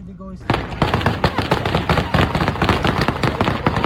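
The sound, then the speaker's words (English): Gunfire outside Kabul airport, shots fired to disperse crowds: many rapid, sharp cracks in quick succession, loud and unbroken for over three seconds, after a brief voice at the very start. “That's the sound of the Taliban firing, purportedly to disperse crowds outside the airport.”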